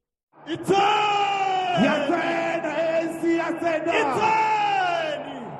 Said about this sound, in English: On Saturday, it held an election rally at a Soweto stadium. Thousands of supporters cheered.